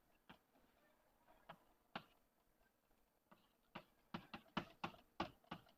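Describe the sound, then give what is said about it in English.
Someone writing: faint, irregular taps and ticks of the pen or chalk, sparse at first, then quicker and louder clusters of clicks toward the end. “I'm just writing this because I happen to remember that by heart”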